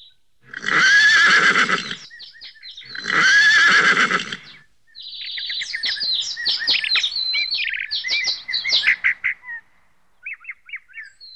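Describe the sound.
A horse whinnies twice in loud, long, shrill bursts, then bird chirps and twitters follow in a quick, uneven run of calls that ends with a few faint tweets.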